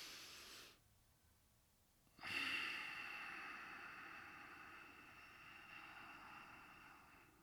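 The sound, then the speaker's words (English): A long breath out through the nose makes a soft, airy hiss. It starts abruptly after a short quiet gap and slowly fades away over several seconds. “wait, let me do a nose breathe.”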